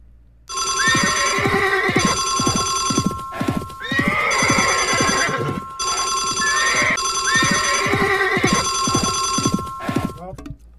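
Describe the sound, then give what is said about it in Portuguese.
Radio jingle for the 'hora do trote' prank-call segment, built from galloping clip-clop hooves, horse whinnies and a ringing telephone bell, repeating in loud bursts for about ten seconds. “É, que é a hora do trote. Bota a vinheta aí.”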